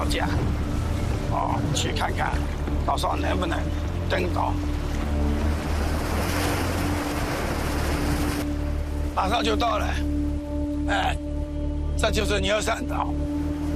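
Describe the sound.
A boat heads out to sea in the rain as a typhoon approaches. A steady low engine drone runs beneath a constant hiss of rain and water, and voices talk at times.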